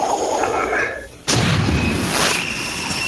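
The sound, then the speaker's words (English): A magic missile spell effect from a tabletop fantasy role-playing game: a humming swell that fades, then a sudden booming burst around the midpoint, followed by a loud, sustained rumbling roar. “I'm going to use my magic missile”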